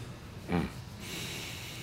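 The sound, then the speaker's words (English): A group draws a deep breath together: a short, low snort-like sound, then a soft, broad hiss of inhaling that holds steady to the end, faint overall. “Let's take a good deep breath together as we begin this day.”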